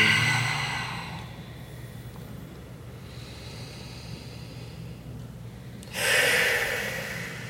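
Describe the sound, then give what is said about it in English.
Deep breaths drawn by a person, heard as loud, noisy breathy rushes at the start and again near the end, with a quieter stretch between them. “like breathe. And you take three breaths.”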